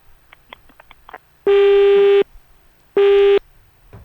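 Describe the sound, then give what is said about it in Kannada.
Telephone busy tone sounding after a caller's line is cut: two long, steady, loud beeps at an even pitch, separated by a short gap, with faint clicks before them. “ಕರೆ ಕಟ್ಟಾಗಿದೆ.”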